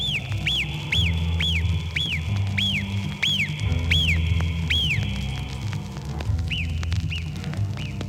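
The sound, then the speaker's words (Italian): A marmot's piercing alarm whistle from the high Alpine valleys near the glaciers, repeated as a quick series of short, very high chirped calls, then a few fainter ones near the end, over a steady low rumbling background. “Nelle alte valli alpine fino al limite dei ghiacciai troviamo le marmotte dall'acutissimo fischio. È il loro segnale di allarme.”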